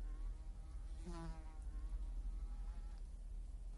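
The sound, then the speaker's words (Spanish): A mosquito's faint, thin whining buzz that rises briefly over a low, steady rumble before fading, as the insect settles onto an object lying on the ground. “se fija en un mosquito que se posa sobre un objeto que está en el suelo.”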